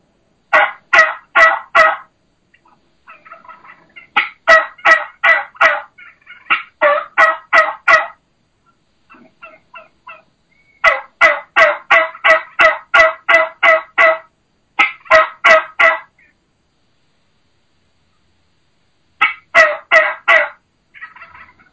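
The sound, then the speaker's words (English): Low, slow yelping of a mature turkey, a boss tom or old hen, given as several runs of evenly paced, loud yelps with quiet gaps between the runs. “the vocalization of a boss tom or a boss hen or an old mature hen. What I call that low and slow.”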